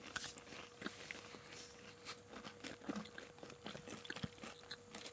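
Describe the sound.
Crisp bites and chewing of a toast filled with meat: many small, irregular crunches and wet mouth clicks, faint and without talk.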